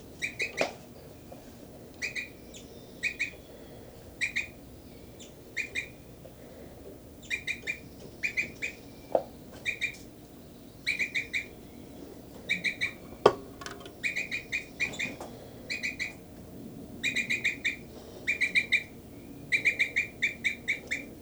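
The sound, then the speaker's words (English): Many short, bright chirps from nesting birds inside an aviary cell, coming in quick repeated clusters throughout, with a few sharp knocks in between and no talking. “I'm now inside the cell of birds 5, 9, and 3, 3. She's on the nest, and I'm going to check the nest here.”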